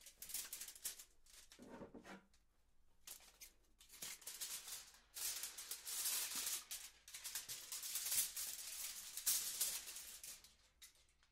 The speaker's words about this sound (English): Okay, so let me just cut my foil.